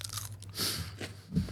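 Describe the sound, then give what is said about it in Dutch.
A person bites into a snack and chews it. A crisp crunch gives way to soft chewing noises, brief and fairly quiet, with no talking. “Dan ga ik eindelijk het hapje nemen.”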